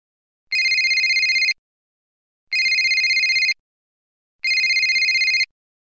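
A telephone rings in three evenly spaced bursts, each a bright electronic trill of about a second separated by silence, with no voices.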